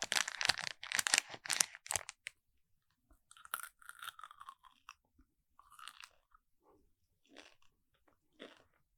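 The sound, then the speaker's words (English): Crunching and chewing of M&M candies in close ASMR style: a dense run of loud, crisp crunches first, then softer chewing bursts separated by short quiet pauses. “Should I leave off with some M&M ASMR? Yeah, go for it. M&M ASMR.”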